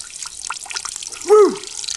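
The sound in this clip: Water at a fountain gives a single resonant drip plop with a quick downward slide in pitch near the end, above a soft hissing background.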